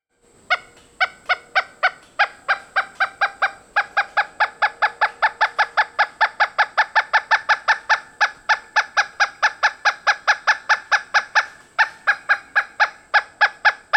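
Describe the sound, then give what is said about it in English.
A pileated woodpecker calls in a loud, rapid series of many repeated, ringing notes at a steady, even rhythm, broken by only a couple of brief pauses. “a mystery sound often starts the show. This is a loud woodpecker.”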